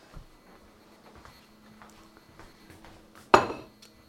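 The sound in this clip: Dishes clink as a plate is taken up in a kitchen where a filled strudel is being prepared: faint rustling leads to one sharp ceramic clatter that rings briefly and fades.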